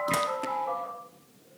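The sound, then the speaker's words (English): A telephone in a home office rings with a faint electronic melodic chime. A couple of bright tonal notes ring out and linger briefly, then fade away within about a second. “I'm using their office and the phone has just gone off.”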